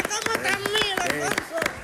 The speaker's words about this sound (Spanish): Yo estoy de palmero aquí. Como sí, es verdad, como aplaude, aplaude con nota. Y luego solo con dos manos.